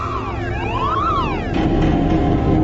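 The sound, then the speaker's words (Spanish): Alarms go off at a central control station, triggered by motion sensors detecting a submarine approaching an underwater tunnel. Warbling tones sweep up and down in pitch over a loud, steady rumble that thickens partway through. “cuando el submarino está a 3 kilómetros del túnel, los sensores electrónicos de movimiento lo detectan y disparan las alarmas del control central.”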